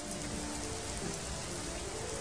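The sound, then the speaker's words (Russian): Warm rain falls steadily, a dense even hiss of drops pattering on surfaces with no breaks or rhythm, fairly soft and heard alone without voices. “А тут дождик начался. Звонкий такой дождик, веселый, теплый-притеплый.”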